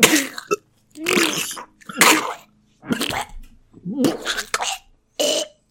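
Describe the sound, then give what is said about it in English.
A voice imitates the chunky, wet breathing sounds of a gravely wounded man, delivered as several loud, raspy, gurgling bursts separated by brief silences. “he's definitely making some good chunky, wet breathing sounds.”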